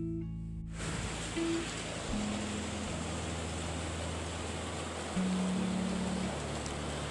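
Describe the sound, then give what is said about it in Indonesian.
Rain begins to fall with a sudden onset of dense, steady hiss that continues unbroken, over a few faint, steady low tones. “hujan langsung turun”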